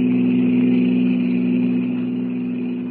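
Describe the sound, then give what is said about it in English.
A roadster car engine running wide open at full throttle on a highway at night, giving a steady, unbroken mid-pitched drone that eases slightly in loudness toward the end. “With its powerful motor wide open, the roadster flies over the white ribbon of highway”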